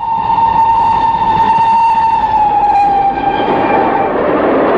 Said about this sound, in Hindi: बच्चों, रेलगाड़ी तो तुमने देखी होगी, है ना?